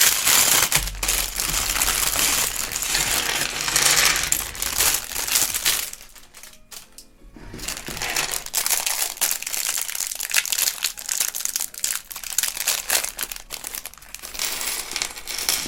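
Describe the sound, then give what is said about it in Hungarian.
A plastic bag of small plastic building-set parts rustles and crinkles loudly and almost without pause, with a brief quieter stretch midway before the dense crackling resumes. “Megint Obika felkapta a fejét a zacskónak a csörgésére, de ez még mindig nem jutalomfalak. Ez még mindig csak kis műanyag alkatrészeket tartalmazó zacskó cica.”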